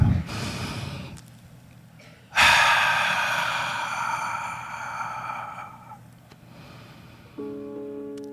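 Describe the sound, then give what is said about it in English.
Deep, audible breathing: a breathy intake followed by a longer, louder breath that fades gradually, and a soft steady tone enters near the end. “Let us take a deep breath.”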